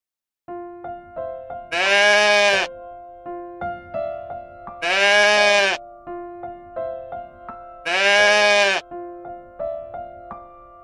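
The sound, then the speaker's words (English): A goat bleats three times at even intervals, each bleat loud, harsh and wavering, set over a simple, plinking melody that keeps playing between the calls. “Goat.”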